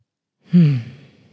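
A long exhalation in a singing breath exercise: a single voiced, sigh-like breath that starts firmly, drops slightly in pitch and thins into a soft, breathy, uneven tail.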